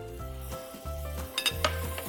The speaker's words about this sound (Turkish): Ocağın altını tekrar yaktım hemen. Çünkü tereyağı koyacağız. Karidesleri pişirmeye başlayacağız. Bol tereyağı koydum.